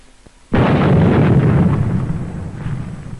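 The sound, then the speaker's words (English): Dynamite blasts through 50-foot ridges during a 1946 US Navy Antarctic expedition, set off by Navy demolition teams. A single sudden, loud explosion breaks the quiet, then a heavy rumbling roar slowly fades away. “The call goes out for dynamite crews, Navy's trained demolition teams, seasoned on enemy beaches. They must blast the 50-foot ridges, clear the way to meet the expedition timetable.”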